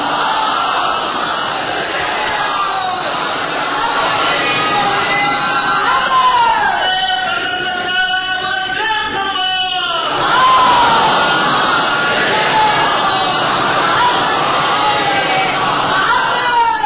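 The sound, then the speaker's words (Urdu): A crowd at a religious lecture on the Quran calls out salawat together, many voices chanting in unison with a loud, steady swell that peaks midway. “علامہ تالی جوہر صاحب قبلہ نعرہ سلوات”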